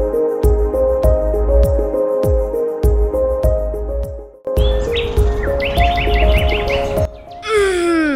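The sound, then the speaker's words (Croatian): Springtime birds chirp in many quick, bright, high-pitched calls, clearest in the second half, where rapid repeated tweets are followed by a few falling whistled notes. “Kako je divno probuditi se uz cvrkut ptica.”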